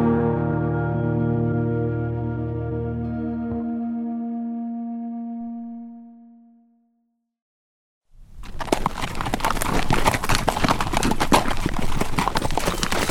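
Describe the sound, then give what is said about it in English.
Horse hooves clip-clopping as a rider rides off toward a settlement; a sustained musical chord fades into silence, then a steady, loud run of many hoof beats continues to the end. “He mounted up and rode toward the settlement”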